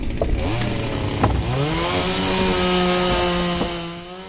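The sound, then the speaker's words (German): A chainsaw cuts wood on Tadashi Kawamata's Log Tower, a sculpture built as a log woodpile on an estate: a loud, continuous buzzing engine drone with a whining tone whose pitch climbs once partway through, then holds steady. “Ja, noch wird gesägt am Log Tower von Tadashi Kawamata.”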